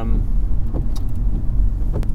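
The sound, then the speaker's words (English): A car drives along roads near York Minster, giving a continuous low, rumbling road and engine noise with a few faint clicks over it. “these roads we're driving along now”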